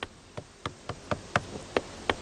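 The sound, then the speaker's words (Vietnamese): Knocking on the wall of a sturdy house: a steady series of sharp, dry knocks at an even pace, fairly faint, with no voices. “À, đau tay ghê. Thấy chưa? Chắc chắn đến mức gõ đau tay kìa.”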